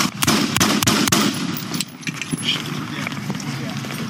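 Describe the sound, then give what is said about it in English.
Gunfire exchanged between police officers and a shooter: a rapid string of sharp, loud cracks, closely spaced at first and then more scattered, over a noisy background with a voice talking underneath. “Shots fired. Shots fired. Suspect is shooting.”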